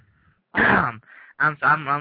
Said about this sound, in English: I'm coughing here. Hold on a minute.